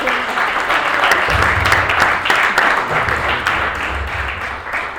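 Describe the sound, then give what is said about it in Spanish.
An audience welcomes a speaker at a conference on alternative education with a sustained round of applause, dense and steady clapping at a fairly loud level, with a faint murmur of voices underneath. “Así que, por favor, recibámoslo con un fuerte aplauso.”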